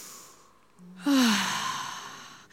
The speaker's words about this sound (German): Einatmen, ausatmen, einatmen, ausatmen. So macht man alle, schön tief einatmen, ausatmen.